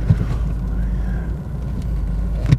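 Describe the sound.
A motor scooter drives past with a loud, steady engine rumble that holds for a few seconds. No other sounds stand out.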